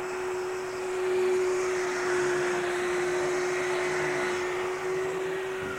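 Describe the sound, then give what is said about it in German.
Steady droning whine of a power tool as construction workers cut plasterboard next door in a building under renovation, an even, continuous hum with a constant tone and no voices. “Nebenan in Haus 2 schneiden Bauarbeiter Gipsplatten zurecht.”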